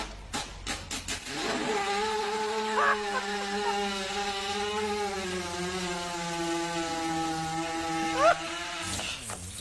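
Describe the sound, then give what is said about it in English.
A horse passing gas while lying on its side with digestive discomfort: after a few sharp taps comes a long, reedy, buzzing low tone that wavers slightly in pitch for several seconds and then stops abruptly. “So when they have digestive discomfort, what happens? They lie on their sides and just let one go. Here's a little sound bite.”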